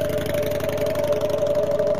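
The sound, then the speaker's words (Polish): A motorcycle engine running in a steady, even drone with a constant hum and no change in loudness throughout. “Motor ruszył i zniknął.”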